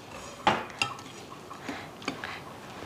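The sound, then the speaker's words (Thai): Chopped shallots and garlic are added to a pot, marked by several faint, sharp clinks and taps of a utensil against the pot over a soft steady hiss. “อันนี้หอมกับกระเทียมสับใส่หมดเลยนะคะ ใส่หมดเลยค่ะ”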